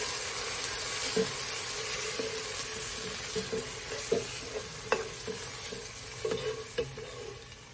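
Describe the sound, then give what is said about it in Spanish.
Chopped tomato is stirred in a sizzling frying pan: a steady frying hiss runs throughout, broken by several scraping and clinking stirring strokes at irregular moments. “Y ahora le ponemos el tomate que puede ser rallado o picado. Yo lo piqué. Lo ponemos aquí tomate y lo mezclamos bien.”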